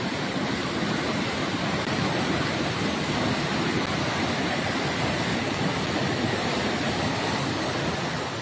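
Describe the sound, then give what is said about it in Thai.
Rushing floodwater surges along in Ban Nam Duk, Lom Sak, after heavy rain fell all night, the muddy current overflowing its banks. A steady, dense roar of water continues without a break and without any talk. “คุณผู้ชมคือเจอน้ำมาตั้งแต่ช่วงเช้ามืดเพราะว่าฝนตกหนักแช่ตลอดทั้งคืนครับแล้วดูกระแสน้ำส”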